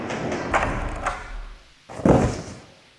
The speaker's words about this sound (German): Was haben Sie uns denn da auf den Tisch geknallt?